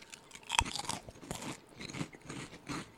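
Crunching and chewing of shrimp-flavored, onion-like snack chips: one loud, sharp crunch near the start, then a series of softer, irregular chewing crunches, with no talk.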